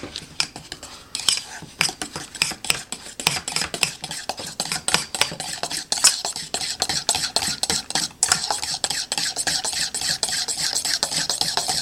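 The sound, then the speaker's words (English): Recipe ingredients are stirred together to mix them, a continuous run of quick, irregular scraping and clinking of a utensil against a dish, busy and fairly loud, with no voices. “all the ingredients are ready to go. So I'm just gonna mix them up, get them all together.”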